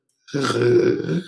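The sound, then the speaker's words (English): An inhaled fluttering made with the uvula, a single rough, rattling, gurgly noise drawn in for about a second, strange and croaky, heard alone. “I'm having a hard time replicating it now. But it was like this inhale flutter kind of thing I was doing with my uvula, and it sounded so weird and gross and strange and unique.”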